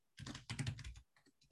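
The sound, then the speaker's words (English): Computer keyboard typing: rapid clattering keystrokes in two dense bursts, followed by a few fainter, sparser taps, with no voices. “So hold on, I'm going to type this up.”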